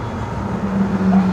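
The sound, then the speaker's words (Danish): A Lamborghini drives past on a street in Japan, its engine a steady low hum over road noise that grows slightly louder as the car approaches. “Men se, der kommer en Lamborghini. Nice. Går der.”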